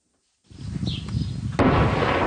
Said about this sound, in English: That is the sound of Lebanon's ceasefire today, as Israeli shelling and fighting by Hezbollah militants continues.